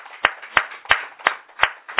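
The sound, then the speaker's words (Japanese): Sharp hand claps, six in all, land at an even, steady pace, loud and alone. They are applause called for to mark a church minister's 50th birthday. “盛大な拍手でお願い”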